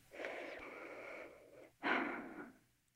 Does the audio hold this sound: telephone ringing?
no

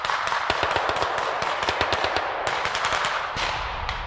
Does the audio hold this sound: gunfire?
yes

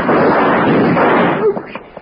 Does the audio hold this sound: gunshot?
yes

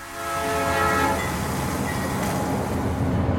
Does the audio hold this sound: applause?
no

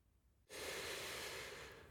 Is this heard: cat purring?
no

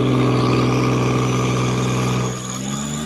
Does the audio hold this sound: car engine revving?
yes

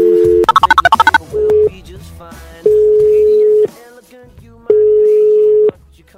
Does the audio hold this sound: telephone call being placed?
yes

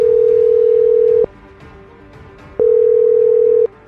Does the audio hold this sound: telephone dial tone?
yes

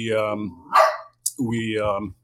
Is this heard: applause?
no

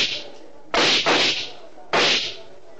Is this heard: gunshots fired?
yes

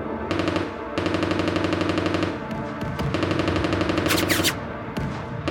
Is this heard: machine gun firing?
yes

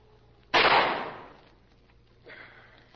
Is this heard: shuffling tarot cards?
no

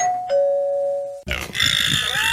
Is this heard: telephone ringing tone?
no

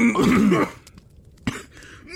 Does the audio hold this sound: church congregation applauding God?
no

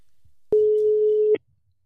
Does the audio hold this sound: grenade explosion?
no

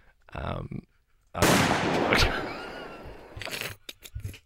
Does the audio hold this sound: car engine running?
no

